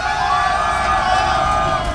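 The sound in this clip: A crowd at a concert cheers for a performer in a loud, sustained roar of many voices. Shouts and whoops blend into a continuous wall of noise that holds steady throughout.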